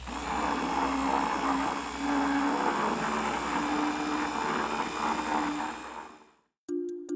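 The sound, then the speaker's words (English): Electric mixer whirring as it mixes ingredients, a steady loud motor drone for about six seconds that cuts off abruptly, followed by a few brief clicks. “This one sounded like an electric mixer, like the kind we have at my house. That's exactly correct. That was the sound of a mixer mixing ingredients together.”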